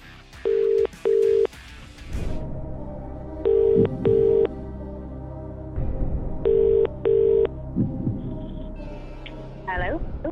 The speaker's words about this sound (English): So, time to make that call.